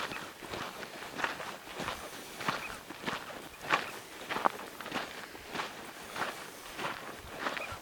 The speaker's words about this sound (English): I'm out here in the desert, California, doing a couple of hours of walking here.